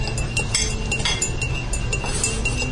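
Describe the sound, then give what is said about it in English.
A spoon clinks against a glass while stirring Sweet and Low sweetener into a drink: many rapid, light metallic taps in an uneven rhythm, fairly quiet and heard alone. “So stirring it now,”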